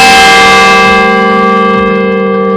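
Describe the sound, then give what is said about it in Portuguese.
Cathedral bells ring from a set of 61 bells that chime every 15 minutes: one loud, sustained metallic tone with rich, steady overtones, its brighter upper ring slowly fading, with no voices. “A cada 15 minutos ele toca. Também é uma função de auxílio também da igreja, mais uma, sim, né? Sim. Nossos sinos aqui são 61 sinos”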